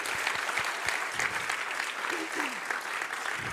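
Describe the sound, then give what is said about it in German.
Steady applause from a church audience clapping for its pastors and leaders, a dense, even wash of claps that holds throughout, with a brief voice rising above it. “Come on, let's just give your pastors and leaders a hand. Gebt ihnen mal einen Applaus.”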